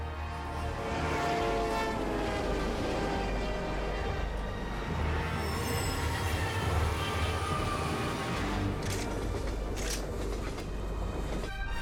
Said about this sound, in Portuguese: na hora que o trem estiver cruzando